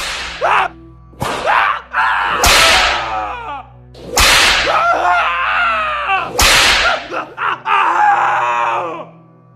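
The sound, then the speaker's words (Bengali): Whip lashes on captured sepoys tied to a tree and flogged by soldiers: several sharp, loud cracks at uneven intervals, each followed by pained groans and screams from the victims. “আর নয়তো গাছে বেঁধে চাবুকের আঘাতে ছিন্ন ভিন্ন করে।”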